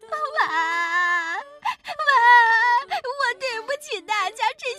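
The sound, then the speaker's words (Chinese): The cartoon character Mao Zhazha bursts into tears, a high acted voice that wails in long drawn-out cries and then breaks into choppy, whimpering sobs. “毛渣渣哭了起来。”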